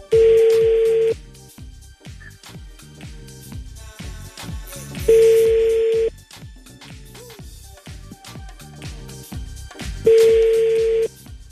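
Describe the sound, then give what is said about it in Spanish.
Telephone tones from a number being dialed on a private line: three long, steady, loud tone bursts roughly five seconds apart, with a busy rhythmic background running underneath the whole time. “Marquemos por línea privada, ¿no? A ver, ahí te voy.”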